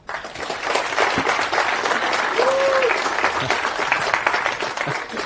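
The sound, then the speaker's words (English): Audience applause welcomes a speaker to a talk on Samba open-source software, steady and dense clapping that swells quickly and holds loud for several seconds. “So give me a hand in welcoming him.”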